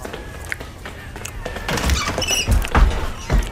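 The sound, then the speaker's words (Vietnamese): A wooden door of a stilt house being smashed open: a few heavy thuds and cracking knocks, louder and bunched toward the end, over a faint rustling background. “Cánh cửa của ngôi nhà sàn bị đập bung ra.”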